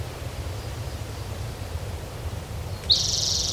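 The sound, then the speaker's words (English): A high, thin trill comes from an orange-crowned warbler singing. It enters only near the end, strong and sustained, after several seconds of steady rushing background noise. “Orange Crown Warbler singing.”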